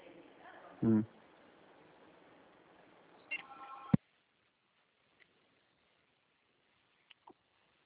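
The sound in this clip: Phone keypad tones as a call is dialed: a few short tone bursts over thin phone-line hiss, followed by near silence with faint isolated clicks.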